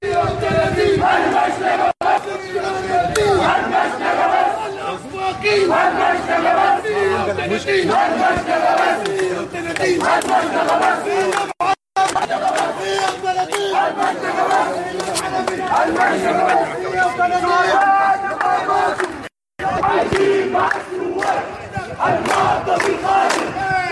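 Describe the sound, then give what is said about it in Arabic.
Activists from resistance committees chant slogans outside a court, celebrating an officer's murder charge. The loud crowd roars continuously, many voices shouting in unison with a few brief breaks. “واحتشد ناشطون في لجان المقاومة أمام المحكمة ورددوا هتافات احتفاء بتوجيه تهمة القتل العمد على الضابط. وردد المحتشدون أمام المحكمة هتافات:”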